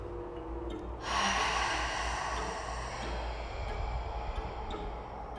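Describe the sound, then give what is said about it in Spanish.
A strong, forceful exhalation after a held breath during a breathing exercise: a loud, breathy rush of air starts about a second in and carries on steadily to the end, with no talking. “Sostén y ahora la exhalación va a ser fuerte.”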